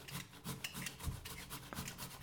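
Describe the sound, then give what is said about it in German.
Potatoes grated finely on a kitchen grater into a bowl: many quick, rhythmic rasping strokes scrape steadily at a moderate level, with no voices over the scraping. “So, also wir reiben jetzt die Kartoffel. Wichtig ist, ähm, wie gesagt, reibt die schön fein, reibt die in eine Schüssel rein”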